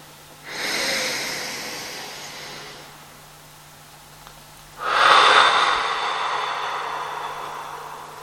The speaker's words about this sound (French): Et soufflez toutes les tensions comme un nuage noir. Une deuxième fois.